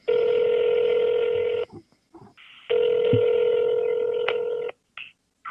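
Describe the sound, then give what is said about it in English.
Touch-tone telephone keypad tones as a number is dialed, mostly two long, steady electronic tones separated by a gap, with a few brief faint blips after them. No voices. “So let's give him a call.”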